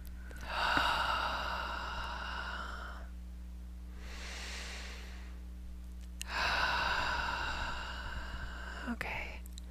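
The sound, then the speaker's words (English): Slow deep breathing during guided meditation: a long drawn inhale, then a broad breathy exhale, then another long inhale, each lasting a few seconds over a faint steady hum. “Okay, and just take some nice deep breaths here. And slower with this next one, please. Slower breath.”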